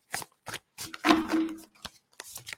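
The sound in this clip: Tarot cards shuffled by hand close to a speaker, heard as a few quick, papery riffling bursts separated by short pauses, with one longer flurry in the middle and no talking.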